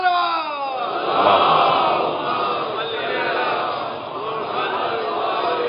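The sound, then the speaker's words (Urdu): A crowd loudly shouts a religious slogan in answer to a call during a sermon. The massed roar of voices swells early on, then holds at a strong, steady level. “تاجیل ظہور امام زمانہ علیہ السلام، بلند سے بلند تر نعرہ”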